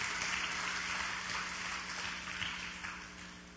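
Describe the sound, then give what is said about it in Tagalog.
A church audience applauds during a sermon, a steady dense wash of clapping that holds for a few seconds and eases slightly toward the end. “Palakpakan nga natin ang Panginoon, mga kapatid.”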